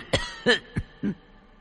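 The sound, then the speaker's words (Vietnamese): An old, exhausted man coughs four times, the harsh, fairly faint coughs coming in an even rhythm about a third of a second apart, with no talking. “Trong giọng nói của lão nhân dường như đã kiệt sức, cứ như thế mà ho.”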